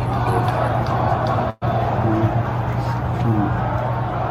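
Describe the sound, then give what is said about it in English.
Stadium crowd at a football game chanting for the head coach to be fired, a steady, loud roar of massed voices with a faint low hum and a momentary cut near the start. “fire Tomlin chant there. That's not good.”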